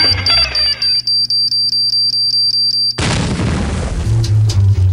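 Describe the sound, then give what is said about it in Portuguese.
A bomb explosion sound effect: rapid, regular beeping tones run for about three seconds, then a sudden loud blast breaks in and a dense rumbling roar fills the rest. “É uma bomba mesmo, explode a bomba”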